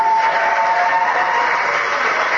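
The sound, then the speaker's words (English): Crowd booing and cheering after Congressman Paul calls for ending wars and bringing troops home: a loud, continuous roar of mixed voices with no clear pauses. “All right, so some boos and cheers there.”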